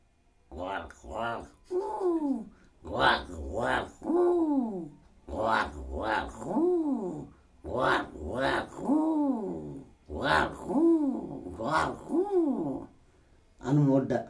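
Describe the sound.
Crow cawing: many harsh, harmonic calls repeat in a steady, insistent rhythm across the whole stretch, each caw arching briefly in pitch, with little pause between bursts.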